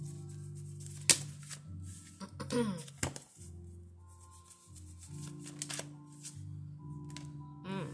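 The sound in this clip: Oracle cards being shuffled give soft, papery rustles in a few short bursts, with one sharp snap as a card pops out, over a low, steady hum.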